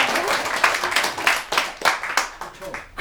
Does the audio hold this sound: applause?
yes